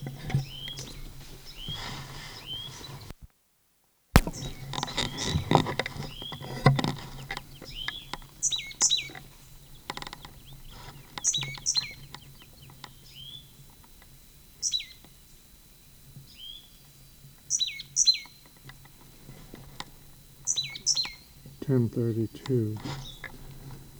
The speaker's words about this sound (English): Same bird.